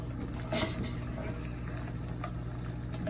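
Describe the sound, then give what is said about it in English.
An egg sizzles as it fries in a kitchen pan, giving a faint, steady crackling hiss with a few light ticks and no voices. “First time ever cooking an egg.”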